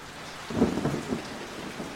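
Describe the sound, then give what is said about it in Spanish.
Rain falls steadily over the countryside, a soft, even hiss, with a low rumble of thunder swelling briefly in the middle before it settles back. “Está lloviendo en el campo y todo se hace más difícil.”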